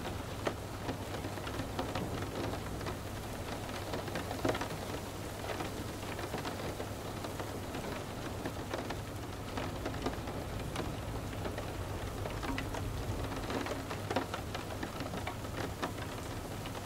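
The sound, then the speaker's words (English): Rain pouring steadily outside on a dark night, a faint, continuous dense patter with a soft hiss that stays even throughout, with no talk. “Outside, the rain pours consistently.”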